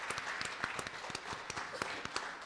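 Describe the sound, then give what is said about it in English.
A church audience clapping in praise, a faint, steady patter of many hands with a regular beat running through a soft crowd murmur. “Give the Lord a hand clap of praise today.”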